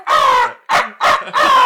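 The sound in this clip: A man imitates a crow call with his voice while duck hunting, giving four harsh, nasal caws in quick succession, the first drawn out and the others shorter.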